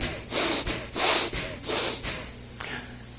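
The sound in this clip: A voice imitates angry, snorting breaths: four forceful, noisy exhalations in an irregular rhythm, the first three strong and the last shorter and fainter, with quiet gaps between them.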